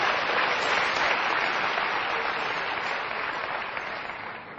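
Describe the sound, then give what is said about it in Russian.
An audience applauds singers and musicians with steady, dense clapping that holds throughout and eases off slightly toward the end. “Let's give a hand to our singers and musicians. Давайте похлопаем певцам и музыкантам нашим.”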